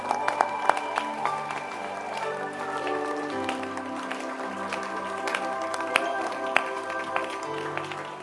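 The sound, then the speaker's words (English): Congregation clapping hands together at the close of a service, a steady run of sharp hand claps mixed under sustained music with held tones throughout. “Stand to your feet and let's close. Clap your hands.”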